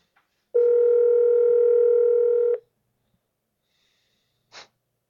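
A single telephone ring tone on a call being placed: one steady, mid-pitched buzzing tone lasting about two seconds, then near silence with a brief soft sniff near the end.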